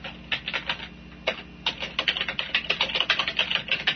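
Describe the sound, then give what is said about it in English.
Rapid typing on a computer keyboard: many crisp, clicky keystrokes in quick, uneven bursts with short pauses, heard alone with no voices. “And I'm going to type Type 2 Blast Chamber.”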